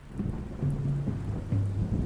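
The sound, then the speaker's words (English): Rain and thunder from a storm outside at night: a steady wash of rain with a low, continuous rumble of thunder underneath throughout the short stretch. “This story concerns a night in the rain, much like the one we're having outside tonight.”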